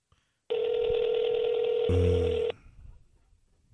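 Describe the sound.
Telephone tone of an outgoing call: one loud, steady electronic beep lasting about two seconds, which changes character just before it cuts off, then near-quiet.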